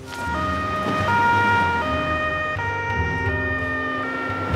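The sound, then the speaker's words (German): An ambulance siren wails loudly and continuously, stepping back and forth between tones in a steady cycle. “wir brauchen noch einen Rettungswagen sofort.”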